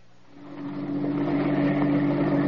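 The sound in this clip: A car engine drones as the car drives up to park near a harbor dock in heavy mist. The low, steady hum swells after the first half-second and then holds at an even level, with no voices.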